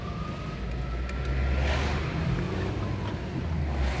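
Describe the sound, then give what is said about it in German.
Road ambience inside a car following a convoy of police cars and ten buses in the evening: a steady, low engine and tire rumble with a faint hiss above it, continuous throughout. “20 Uhr ist dann diese Kolonne von Polizeiautos und 10 Bussen losgefahren und wir waren das einzige Auto dahinter und wir fuhren und fuhren. Hier ein bisschen Atmo von der Autofahrt.”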